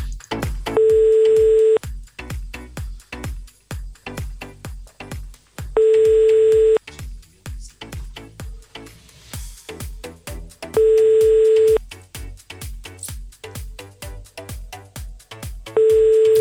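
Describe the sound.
A telephone tone heard while dialing to reach a caller sounds four times at regular intervals, each a steady mid-pitched burst about a second long, over loud rhythmic music with a pounding beat.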